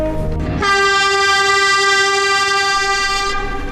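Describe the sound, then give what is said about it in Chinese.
A long horn blast sounds in cold wind as a line of vehicles greets a hero's return. A single steady, loud tone holds for about three seconds, then stops. “我们看到的是人们手中的横幅，听到的是寒风中笛声的长鸣。”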